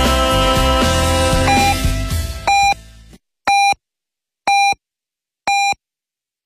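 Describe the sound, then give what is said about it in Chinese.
Radio time signal pips mark midnight Beijing time: four short, identical high beeps about one second apart, each standing alone after the music ends. “北京时间零点整”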